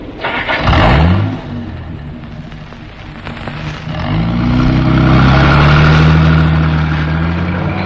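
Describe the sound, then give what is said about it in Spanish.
A car engine starts and the vehicle pulls away: a brief rising whine, then a loud, steady engine drone that builds and holds, under a constant hiss. “El teniente Harrison puso en movimiento el vehículo”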